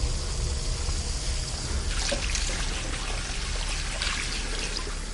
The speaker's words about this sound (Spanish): Llega hasta el lavabo de quirófanos y se lava las manos brotando con nerviosismo.